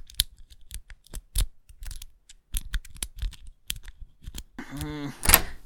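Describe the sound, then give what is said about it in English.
A lock is picked with a hair clip, making small metallic clicks, ticks and scrapes in a quick, irregular series, some louder than others. “just let me borrow a hair clip. If I can pick this lock...”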